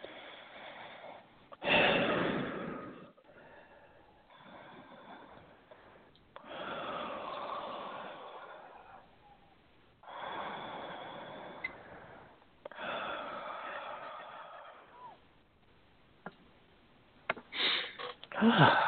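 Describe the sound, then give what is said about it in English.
Several slow, deep breaths drawn in and let out, forming long airy swells in a steady, unhurried rhythm. They are fairly faint and heard without talk. “And take three nice deep breaths.”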